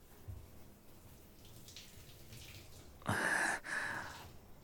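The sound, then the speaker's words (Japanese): Water rinses a body in a bath, heard as a sudden loud rush of splashing water that starts after a quiet stretch, breaks off briefly, then continues to the end. “今体流しますね。”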